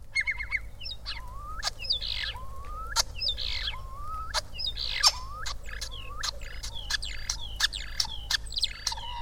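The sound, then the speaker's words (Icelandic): Whimbrel calls in many short repeated fragments: quick rising whistled notes alternating with sharp clicks, set over a low steady hum. “Síðan mjög stutt endurtekin brot frá spóa.”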